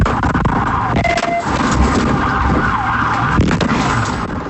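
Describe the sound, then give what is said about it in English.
A siren wails during a police vehicle pursuit in Fernandina Beach, rising and falling over a loud, steady roar of traffic and engine noise. “that's sound from a vehicle pursuit in Fernandina Beach.”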